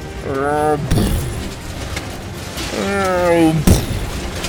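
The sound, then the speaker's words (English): An out-of-control bulldozer swinging a wrecking ball through a fairground lets out two drawn-out metallic groans. Each groan sags downward in pitch and is followed by a sharp clank. “Rudy's out-of-control bulldozer that glided by with a groan and came within inches of my face.”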